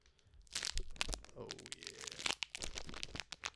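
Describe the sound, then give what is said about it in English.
A pack's wrapper is torn open and crinkled while held up close to a microphone. Dense, crackly rustling and tearing runs almost continuously, with sharp crunchy peaks throughout. “we're going to crack a pack real quick. And I'm going to put this up to the mic so you can hear it.”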